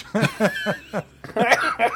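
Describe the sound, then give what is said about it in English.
A man coughing in a run of short, harsh, throaty bursts, a few closely spaced, then a pause before a denser cluster of choking coughs. “coughing and dying. Sorry. It's fine. Choking on the cynicism.”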